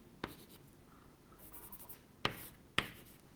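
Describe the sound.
A pen writes fractions by hand, a quiet, continuous scratching of strokes broken by three sharper taps that stand out clearly.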